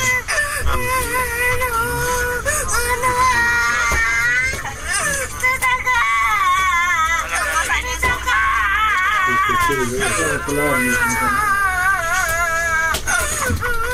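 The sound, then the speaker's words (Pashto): A young girl, injured in an avalanche and lying on a bed, crying and screaming for her parents, with loud, continuous wailing whose pitch wavers and breaks into sobs. “اوس په یو کټ کې پرته ده، په چغو چغو ژاړي او خپل مور او پلار له خلکو غواړي.”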